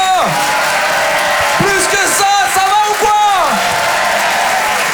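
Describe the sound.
A live comedy audience at the Apollo Théâtre in Paris cheers and applauds, keeping up a loud, continuous crowd roar. Whooping and shouting voices rise and fall throughout.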